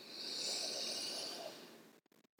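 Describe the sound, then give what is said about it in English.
A deep breath in and out, one long airy hiss of breath lasting about two seconds, steady and moderately loud, then it stops abruptly into silence. “Taking a moment here to breathe”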